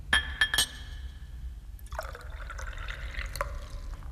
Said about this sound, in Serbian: Sipaću ti viski.